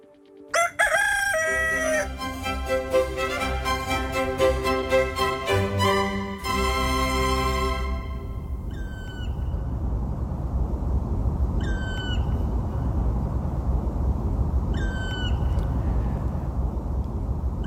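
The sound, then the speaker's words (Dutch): Excited alarm calls of a black woodpecker in Hilversum: three short, harsh, high-pitched calls spaced a few seconds apart over steady background noise, preceded by a loud musical jingle. “Caroline Abbenes hoorde in Hilversum een zwarte specht die opgewonden aan het alarmeren is. Wordt ook wel de zitroep genoemd.”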